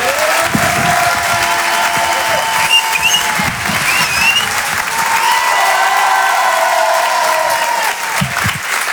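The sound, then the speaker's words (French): A loud, sustained burst of applause and cheering rises from a comedy club audience welcoming comedian Edgar Yves to the stage, with voices calling out through the crowd's continuous clapping. “Je vous demande de faire un maximum de bruit, un tonnerre d'applaudissements pour Monsieur Edgar Yves.”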